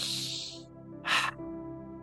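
A single deep breath is drawn in, a short, airy rush of inhalation lasting about a third of a second in the middle of an otherwise quiet stretch.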